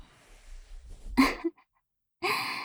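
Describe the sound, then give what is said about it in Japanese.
A big yawn: a breathy rush of air swells and cuts off, then after a short silence another airy, drawn-out breath follows. Both are fairly soft, with no talking. “すごいあくび出ちゃったね。”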